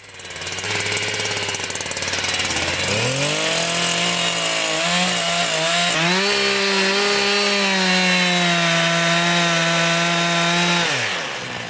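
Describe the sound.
Chainsaw cutting poplar wood blocks in a chair-making woodworking studio. The loud engine idles low at first, then revs up into a steady, high, buzzing whine under load for several seconds before dropping off at the end.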